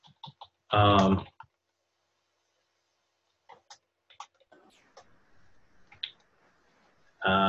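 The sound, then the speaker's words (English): Typing on a computer keyboard: a few light, irregular clicks and taps, sparse and fairly faint, between brief bursts of a voice speaking. “And I should type this.”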